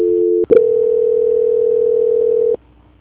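Telephone tone during a call transfer: a short dual tone, a click, then a loud, steady single tone lasting about two seconds that cuts off abruptly into a faint, lower hum.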